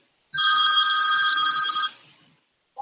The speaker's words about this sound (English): Phone is gonna ring.